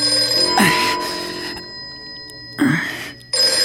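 A telephone rings in a rented lodging, giving two full bursts and the start of a third, separated by pauses, over a steady tonal hum.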